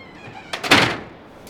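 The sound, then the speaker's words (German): A rocket door opens in a planetarium setting with one brief thunk and a short, breathy sliding whoosh, moderately loud, then quickly fading to quiet. “Kommt, ich will zur Rakete. Wo ist denn hier die Tür?”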